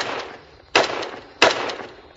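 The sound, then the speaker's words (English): An AK-47 rifle fires at mannequins in body armor vests, giving three loud, sharp, evenly spaced cracks with short decaying tails. The last shot is cut off at the end. “The AK-47 shoots through the old vest.”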